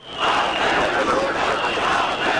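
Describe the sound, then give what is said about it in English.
Roar of thousands of protesters in Tirana, Albania, rallying against a luxury resort deal: a dense wash of many voices that swells in quickly and then holds steady and loud. “Plastic replicas of the pink birds bobbed above the crowds in Tirana, Albania this week as thousands protested a resort deal they say has moved ahead with little transparency.”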